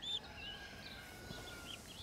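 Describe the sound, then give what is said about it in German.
Faint, thin peeping from a hand-fed baby bird after it is given drops, with a few short high chirps scattered over a steady low background hiss. “Macht es auch schon die Augen wieder auf und piept wieder rum.”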